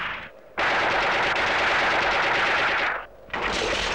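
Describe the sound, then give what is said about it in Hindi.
Rapid automatic gunfire from many shooters aimed at one man sounds in two long, loud, continuous bursts, split by a short pause. “20 के 20 एक आदमी पे गोली चलाते हो”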